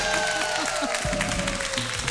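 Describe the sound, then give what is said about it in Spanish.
Audience applause greets a band arriving on an auditorium stage while music plays softly. Moderately loud clapping mixes with crowd noise and a steady tone underneath. “Además de la banda, miren, aplausos.”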